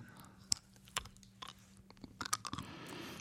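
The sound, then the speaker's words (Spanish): Biting and shifting of a small object between the teeth of someone wearing braces, with a few sharp clicks and crunches over soft mouth noise and no talking. “Pero si lo estás mordiendo. Lo estoy moviendo. Lo estoy moviendo entre los dientes.”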